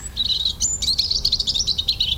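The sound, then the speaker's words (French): European robin chirping: many quick, high, thin chirps in a rapid run, heard over a faint low background rumble. “Le rouge-gorge a longtemps été un farouche oiseau des bois qui ne se rapprochait des maisons qu'en hiver.”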